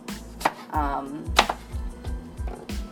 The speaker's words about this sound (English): They say you can put like just have the apple and put it in, but I chop it up a little bit more just because, I don't know, I just feel like those are big pieces.